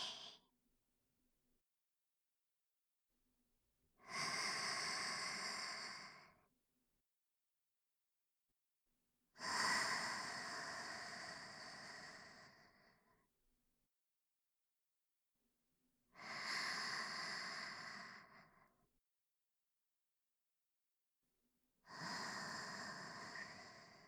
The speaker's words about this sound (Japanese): 体の力抜いちゃいましょうね。吸って、吐いて。